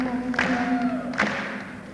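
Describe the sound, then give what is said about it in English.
An audience claps along to a song, a few evenly spaced claps in steady time over a sustained sung melody with music underneath. “Keep clapping like that.”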